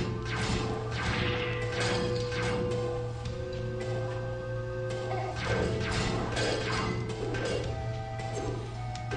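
Walls slamming in on the player in a Zelda dungeon, with heavy crashing thuds and whooshing swipes layered over a steady tonal game soundtrack that runs throughout.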